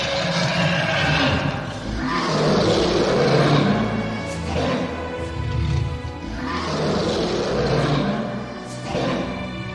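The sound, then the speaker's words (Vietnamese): A deep, monstrous roar of a mythical dragon vein shaking heaven and earth: two long, rumbling roars that swell and fade, loud and growling throughout. “Là long mạch ngửa mặt lên trời, gầm thét lên một tiếng. Một tiếng thiên địa rung chuyển.”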